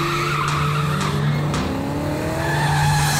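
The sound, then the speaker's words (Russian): Tires squeal loudly and continuously as a black Toyota car speeds, the engine roaring under the unbroken screech. “Водитель черной Тойоты, примите вправо.”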